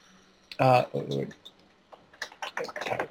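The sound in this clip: Code is typed on a computer keyboard as a few scattered key clicks, quiet and irregular, with a person talking over the start.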